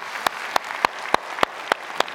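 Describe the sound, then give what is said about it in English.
Applause at a church service sounds as seven crisp claps on an even, steady beat over a soft, hissy background. “And so let's give it up for our online team and the talk Matt gave. Thank you guys so much”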